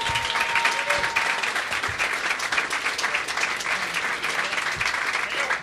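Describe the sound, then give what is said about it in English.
Loud live applause as the comedian Gavin Webster is welcomed on stage at the Edinburgh Fringe, with dense clapping holding at a steady level throughout. “But to give Mick a big round of applause for a minute, but he'll be back in a sec. That was very, very, very good. And will you please welcome the fantastic comedian Gavin Webster, ladies and gentlemen.”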